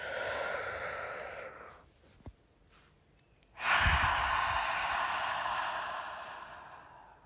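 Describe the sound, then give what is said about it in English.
A person takes slow, deep breaths: a soft airy breath fades out, a brief quiet pause follows, then a much louder, drawn-out deep breath in lasts several seconds. “take the biggest, deepest breath you've taken all day with me now. Breathe in.”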